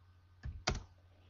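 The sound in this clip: Two keystrokes on a computer keyboard, separate sharp taps in quick succession over a steady low hum.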